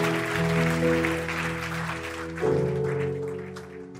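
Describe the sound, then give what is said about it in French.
An audience applauds during a standing ovation at a church service. The clapping is a soft, broad wash under loud sustained keyboard chords that change harmony about halfway through. “Est-ce qu'on peut donner une ovation à ce Dieu de gloire et de grâce?”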